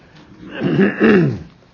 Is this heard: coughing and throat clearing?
yes